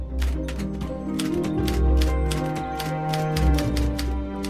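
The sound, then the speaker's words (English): Rapid typewriter keystrokes as someone types: many sharp mechanical clicks in an uneven rhythm, running throughout over a low, sustained tonal bed. “She sits at the typewriter and purses her lips. She types”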